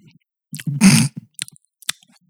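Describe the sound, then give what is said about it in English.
Close mouth sounds of someone licking Nutella from a spoon: a low, voiced hum with wet smacks, then a few short, sharp lip and tongue clicks. “Have you licked this spoon? I'll lick it right now. Oh, fuck. No. Too late. No, I'm having that Nutella time.”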